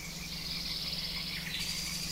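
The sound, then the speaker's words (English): Frogs and birds call together outdoors in a steady, fairly faint chorus of continuous trilling and high chirps, with a low pulsing drone beneath and no talk. “All right, we're going to let the frogs and the birds take it out.”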